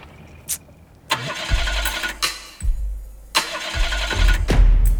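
An old inherited car with something wrong with it and a noisy engine is started with several rough cranking attempts, each ending in a loud burst of engine noise. The engine then runs and revs unevenly, with no talking.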